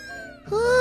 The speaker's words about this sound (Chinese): 你看，小猫咪跳进院子了。